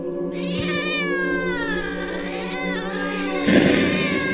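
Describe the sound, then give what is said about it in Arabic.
A cat meows in one long, drawn-out cry with a wavering pitch, loud and alone, followed by a sudden burst of noise near the end. “وسمعت صوت قطة تانية لكني مش شايفاها.”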